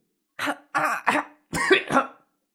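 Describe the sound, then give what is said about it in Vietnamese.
A man chokes in a violent coughing fit: several harsh, throaty coughs in quick bursts, with a longer double burst at the end. “Dư Vũ ho sặc sụa”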